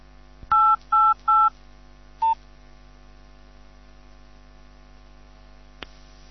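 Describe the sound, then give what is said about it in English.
Three identical, evenly spaced touch-tone beeps as a Vodafone mobile phone dials the service number 888. A single shorter tone follows, then a brief click later, all over a steady low mains hum. “So I'm going to turn off my microphone, wind up the channel on the mixer, and dial this service, which is 888, and let you hear it.”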